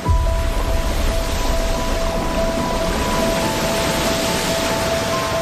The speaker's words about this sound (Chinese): 3台世界上运行速度最快的启闭机依次开启，超过15万立方米的水从船闸闸室中依次涌入高位、